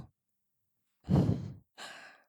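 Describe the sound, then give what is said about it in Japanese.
Breath blown softly into the ear in two breathy puffs, the first longer and fuller, the second lighter and airier. No voice accompanies them. “お姉ちゃん、息ふうふうされるのどう？気持ちいい？”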